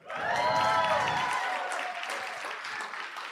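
Audience applause at a live science comedy debate: dense, sustained clapping that swells quickly, peaks in the first second, then eases slightly but keeps going to the end.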